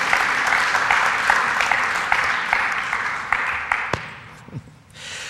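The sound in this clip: An audience applauds to welcome a guest pastor to the stage. The clapping is a dense, steady wash that thins and fades out near the end.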